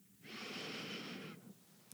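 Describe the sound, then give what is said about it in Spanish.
A single deep breath in during a guided breathing exercise makes a soft, airy, steady hiss lasting about a second, then fades to near silence. “Vamos a inhalar profundo.”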